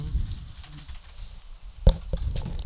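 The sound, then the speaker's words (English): Typing on a computer keyboard: soft, irregular key clicks, faint and steady, with one sharper tap standing out near the end. No voices are heard. “I think I typed all that right.”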